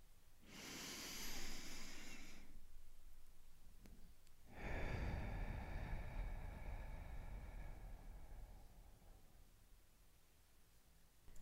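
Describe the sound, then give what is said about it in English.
One person takes a deep breath in through the nose and then lets it out through the mouth in a guided breathing exercise. A soft two-second inhale is followed by a pause, then a longer, airy exhale that slowly fades. “take a deep breath in through our noses and out through our mouth.”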